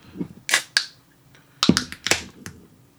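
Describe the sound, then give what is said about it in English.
Kombucha bottle being opened, fizzing and spraying out: sharp cracks and short bursts of hissing spray come in irregular clusters, separated by brief quiet gaps. “sprayed all over my hand. Jesus. Great. Now you're going to smell like kombucha.”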